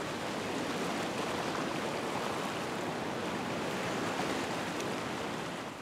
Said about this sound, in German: Darum haben die Einheimischen zwischen den Felsen Naturbecken angelegt. Da kann sich jeder gefahrlos in die Fluten stürzen. Schwimmen wie in einer riesigen Badewanne. Und sogar mit Wellengang.